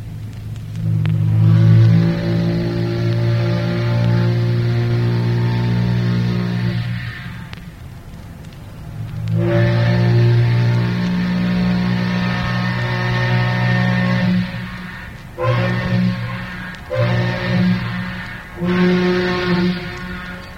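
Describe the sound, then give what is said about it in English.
Deep, sustained steam whistle blasts from side-wheel riverboats, including a steel-hull side-wheel steamboat: two long, rich harmonic blasts of several seconds each, followed by three shorter blasts in quick succession. “So close your eyes and you'll hear the two side wheelers named Bonanza, the City of Cincinnati, the Kentucky, the Steel Hull Side Wheel Cincinnati, and the Sailor.”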